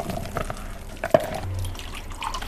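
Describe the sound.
Creamy white baobab-fruit drink with a little sugar being poured after sieving: faint liquid splashing and dripping, with one sharper splash in the middle and a soft trickle around it.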